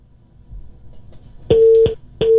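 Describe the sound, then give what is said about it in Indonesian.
A busy tone follows a disconnected phone call. It is a loud, steady mid-pitched beep that starts each time with a click; one full pulse is followed by a second that is cut short, after a stretch of quiet low rumble. “Oke, terputus.”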